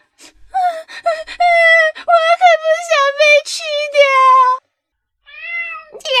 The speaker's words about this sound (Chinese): 一只瘦得皮包骨头的黑猫说道。